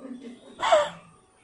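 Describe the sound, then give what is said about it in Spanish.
A single breathy exhalation, a short airy rush of breath that swells and then fades within about half a second, preceded by a faint murmur. “Cuando los hebreos decían Jehová, es lo, básicamente era el mismo sonido de la exhalación.”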